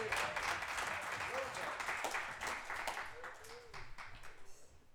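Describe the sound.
Applause in a church for the children and their teachers: steady, dense clapping that runs throughout and eases slightly toward the end, with some voices mixed in.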